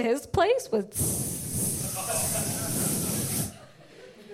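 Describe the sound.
A voice imitates the hiss of a leaking air mattress with a long, steady, breathy hiss that holds level for a couple of seconds, then cuts off. A few spoken words come just before it.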